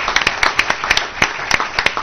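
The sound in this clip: Applause from an audience at a board meeting: a brisk, irregular patter of overlapping hand claps at a fairly steady level, with sharper claps now and then, and no voices.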